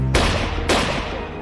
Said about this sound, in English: As Palme walked away, the man fired two shots into his back.